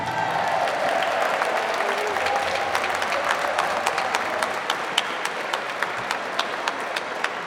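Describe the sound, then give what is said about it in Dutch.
Audience applause at an open house event, given to the toilet cleaning crew: a dense, steady burst of many hands clapping at an even level, with a few sharper individual claps standing out toward the end. “zou ik willen zeggen een groot applaus voor de toiletgroep”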